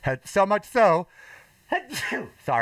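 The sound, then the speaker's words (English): A person's sneeze, heard as a few short voiced bursts separated by brief gaps, fairly loud and with a breathy stretch in the middle. “I'm going to sneeze by the way”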